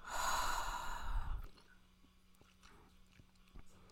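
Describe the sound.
One long, deep breath as part of a guided breathing exercise, heard as a loud, airy exhale lasting about a second and a half, followed by near silence.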